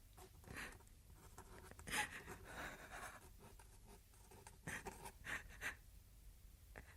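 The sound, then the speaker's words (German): Pen scratching on paper as another person guides a hand to mark a cross on a document, a few short rough strokes separated by pauses, faint, with no talk. “Dies alles bestätige und gelobe ich durch meine Unterschrift dieser Urkunde, deren Inhalt mir vorgelesen wurde. Soll ich einen Kreis oder ein Kreuz machen? Ich kann meinen Namen nicht schreiben. Ich führe dir die Hand.”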